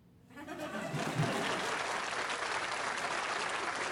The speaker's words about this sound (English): can I get another round of applause, please, sir?